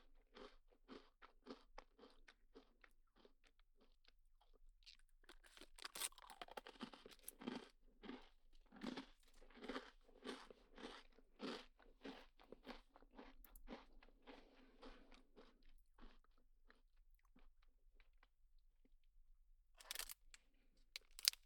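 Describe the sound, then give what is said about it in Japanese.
Someone eating a cookie, with crisp, close crunching bites. Soft, sparse crunches at first give way to a dense run of loud chewing crunches, then a quiet pause and a few final crunches. “私はクッキーおいしいもぐもぐってしてるんです。”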